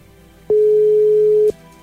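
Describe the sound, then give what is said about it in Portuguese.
A single telephone ringback tone sounds while a call is being placed: one steady mid-pitched beep lasting about a second, clean and alone over a faint background hum. “Val, boa noite. Tá chamando.”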